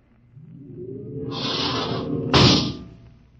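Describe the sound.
Air hisses as the outer airlock of a spacecraft opens: a low rumble swells, then two bursts of bright hissing come, the second sharper and louder, before the sound fades away.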